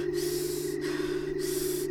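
Heavy, out-of-breath breathing from a woman who has just run around a corner past a large building. A few long, noisy breaths are broken by brief pauses, over a steady low hum.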